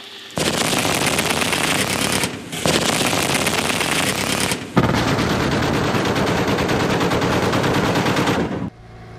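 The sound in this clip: Rapid, sustained gunfire from a live-fire air-defence exercise: loud, dense bursts of continuous shooting broken by two short pauses, with no talk.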